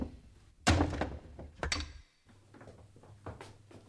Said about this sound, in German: Die Tür ist von innen verriegelt. Brechen Sie sie auf.